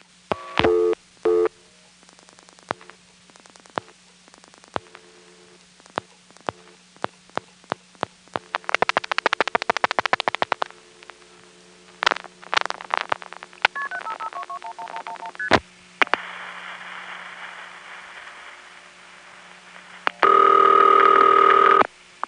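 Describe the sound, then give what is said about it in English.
A telephone line rings on a step-by-step exchange line in Raleigh ahead of an intercept recording: a run of sharp dialing clicks and short tones comes first, then a steady ringing tone, then a loud, steady tone at the end. “the foray in Raleigh rings before its recording comes on. And this ring, by the way, is the same ring that I later had in 1979”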